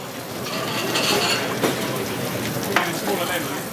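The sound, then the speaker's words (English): Potatoes sizzling in a restaurant deep fryer, a steady, dense crackling hiss with two brief sharp knocks breaking through. “I reckon most tables will order one of the potato dishes, no matter what. So that goes in the fryer. Just as that's going in the fryer”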